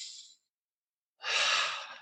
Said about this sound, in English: So let's take a deep breath in and out.